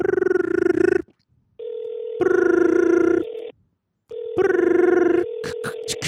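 A call to a gym building's landlord rings on the line: three buzzing ring bursts, separated by a steady lower tone, ending in a few sharp clicks.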